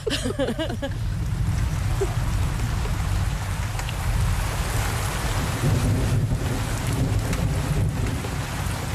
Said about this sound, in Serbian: Jori se, grmi. I pada kiša. Pada.